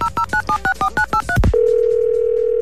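Eight short two-tone telephone keypad beeps come in a quick, even rhythm. A brief rushing burst follows, then a steady, continuous dial tone.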